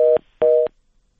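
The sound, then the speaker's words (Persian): Telephone tone after a dropped call: two short, steady beeps of a single flat pitch, the second slightly longer, followed by silence. “شنونده ما تماسشان قطع شد.”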